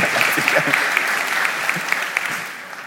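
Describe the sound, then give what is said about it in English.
Audience applause: dense, even clapping holds at a moderate level for about three seconds. “Let's give Joan a big round of applause.”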